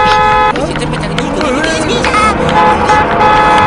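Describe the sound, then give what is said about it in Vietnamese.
A car horn honks in a comedic stage skit, with a steady blaring tone at the start and again near the end, set against loud, overlapping voices and shouting. “tránh đường cho ô tô”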